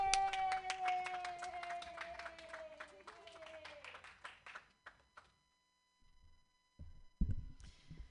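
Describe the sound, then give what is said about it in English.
Audience applause welcomes a comedian to the stage at a comedy club: steady clapping that thins out and fades over about five seconds, then near silence before a brief voice at the end. “Put your hands together, everybody.”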